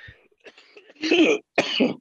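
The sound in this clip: Coughing and throat clearing from someone with a bug caught in the throat: fainter throaty catches, then two loud, harsh bursts, with no speech.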